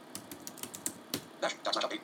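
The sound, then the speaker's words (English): Keystrokes on a computer keyboard as a script is typed into a terminal: quick, irregular taps come in a steady stream, then bunch into denser bursts near the end, with no voices. “let me go to my terminal here. And I'm going to just type in a script here.”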